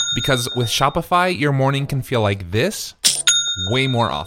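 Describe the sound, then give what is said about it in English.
An online store's sale notification chime rings out as a bright, steady electronic tone, once at the start and again near the end, beneath continuous talking. “That's the sound of a sale being made on your new Shopify store.”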